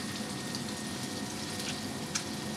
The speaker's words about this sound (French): Je presse l'orange bêtement dans la poêle. Donc en fait là le but c'est de rajouter un liquide pour récupérer tout le caramel.